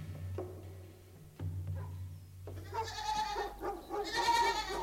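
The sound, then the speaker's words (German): Goat bleating, a few loud wavering, nasal calls that fill the second half after a quieter stretch of low rumble and scattered knocks. “Haben Sie sich neulich schon meine Ziege Clementine angesehen?”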